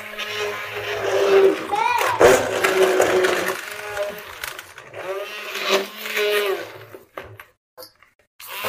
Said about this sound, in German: Okay, dann stampfe ich das jetzt auch. Ja, stampf das mal klein.